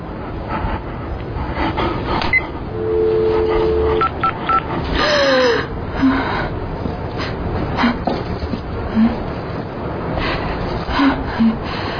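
Telephone keypad tones as a number is dialed: a sustained tone followed by a few short beeps over low background noise.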